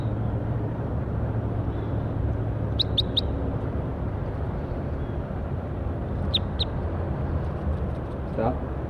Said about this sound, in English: Recording bird 4-8. Stop. Start recording bird 5-7.